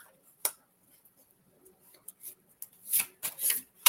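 Handling and shuffling of a deck of word of wisdom cards: faint, sparse rustles and soft card slaps, with a few brief louder bursts clustering toward the end.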